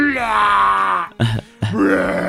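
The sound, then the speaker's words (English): A voice imitates vomiting, producing a long, strained, groaning retch followed by two short, choked gagging bursts with a brief silence between them. “If you're wearing headphones, I'm sorry for the puke noise.”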